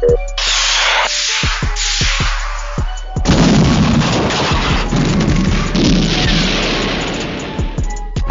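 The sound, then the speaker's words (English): Sci-fi spaceship feedback rockets fire in a rapid series of sharp cracking bursts, then swell into a loud, sustained hissing roar still punctuated by thudding pulses. “Computer, engage feedback rockets.”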